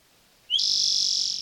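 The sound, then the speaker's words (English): A Swainson's thrush gives a single clear, high whistled note that slides upward at its start and then holds steady for nearly a second, loud and alone against a quiet background. “36, loud Swenson thrushes.”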